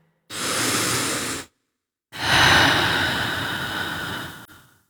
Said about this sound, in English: Take a breath.